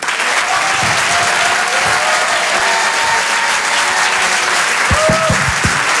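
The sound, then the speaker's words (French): Loud, steady applause from a comedy show audience greeting a stand-up comedian, dense clapping that carries through the whole stretch, with some whistling mixed in. “Je vous demande de faire un maximum de bruit, s'il vous plaît, pour Arturo.”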